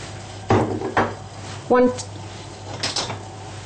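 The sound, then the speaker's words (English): A frying pan is handled while mushrooms fry in margarine, giving a few metallic clanks and knocks at uneven intervals over a low background. “In the meantime, I'm going to fry my mushrooms.”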